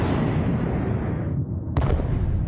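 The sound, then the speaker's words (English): Distant cannon fire from guns fired haphazardly in a fitful cannonade: a continuous, loud low rumbling roar with no clearly separate shots, swelling briefly near the end, with no voices. “Before the guns on the Richmond and Kingston line of hills began, there was a fitful cannonade far away in the southwest, guns being fired haphazardly before the black vapor could overwhelm the gunners”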